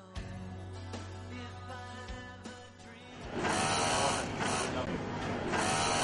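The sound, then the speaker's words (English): An industrial sewing machine runs at a textile factory near Nairobi, Kenya, giving a steady whirring hum with tonal overtones that turns louder and rougher partway through. “That is the sound of an industrial sewing machine at a textiles factory near the Kenyan capital, Nairobi.”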